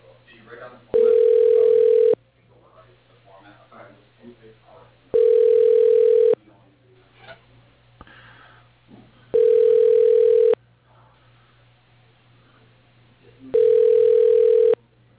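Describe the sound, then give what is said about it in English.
Telephone ringback tone while a call transfers to voicemail: four long, steady, evenly spaced rings of the same pitch, with faint voices murmuring in the gaps between them. “Let me get your Bill's voicemail. Hold on one second.”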